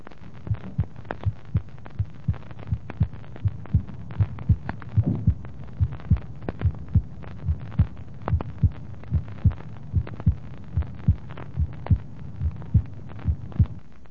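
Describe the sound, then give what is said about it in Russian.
Heart sounds after surgical ligation of a patent ductus arteriosus, with the systolic-diastolic murmur at the left second intercostal space gone and a less accented second tone: many steady, regular low thumps in an even rhythm, without a murmur between beats. “После операции и перевязки незаращенного артериального протока систолодиастолический шум во втором межреберье слева исчез. Акцент второго тона менее выражен.”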